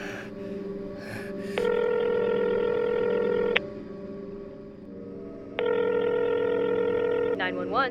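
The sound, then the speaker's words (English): Phone line ringing on a 911 emergency call: two long, steady, buzzy ring tones of about two seconds each, separated by a quieter pause, with a short breathy sound before the first ring. “He went to dial 911, hands yet shaky, breath trembling. Through much perseverance, the line began to ring.”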